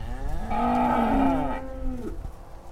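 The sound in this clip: A cow moos once in a barn. The call is long, low and drawn-out, bends slightly in pitch and trails off into faint background noise.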